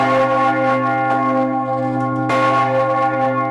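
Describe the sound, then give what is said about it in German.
A large city alarm bell in Lausanne rings in an emergency rhythm, its deep, loud strikes leaving a long, overlapping hum that never fully dies away between blows; a few strikes are heard, with no voices. “Das ist so ein altbewährter Nottakt hier, in dem die Clémence gebimmelt wird. 3 Schläge und dann Pause, 6 Schläge, Pause und dann immer so weiter. Und ja, das klang dann so.”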